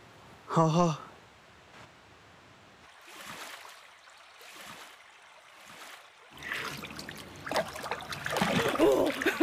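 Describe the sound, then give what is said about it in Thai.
Splashing as someone plays in canal water: a brief voice-like sound at the start, a few separate splashes in the middle, then busier, continuous sloshing and dribbling at a moderate level toward the end. “คุณหนูเล่นน้ำในคลองอย่างนี้ก็นึกกลัวไอ้เข้อยู่เหมือนกันนะเจ้าค่ะ”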